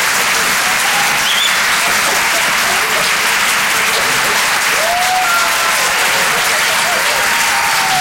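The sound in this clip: Loud, sustained audience applause for a comedian at a comedy show, with dense, even clapping that holds steady for the full eight seconds.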